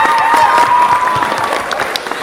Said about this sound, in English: Another hand clap.